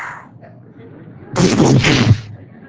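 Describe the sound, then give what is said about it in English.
A voice imitates machine gun fire with one short, harsh, rattling burst that lasts about a second, after a quiet stretch. “you're standing there and you're preaching Jesus, and somebody comes up with a machine gun and you just go,”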